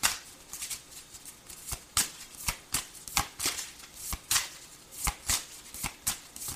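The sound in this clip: Playing cards are shuffled in a quick run of many crisp, papery riffles and snaps. The rhythm is irregular and the sound is fairly soft, with no speech.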